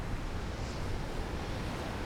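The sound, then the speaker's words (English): Sea water washes at the shore by a wooden sea break, a faint, continuous hiss of surf with a soft wind-like rush, steady and even, with no distinct breaking waves. “They stand as the water continues to lap their feet.”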